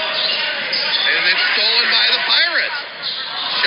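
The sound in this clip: A basketball bounces on the court during a game, with repeated dribbles under a commentator's voice and crowd hubbub.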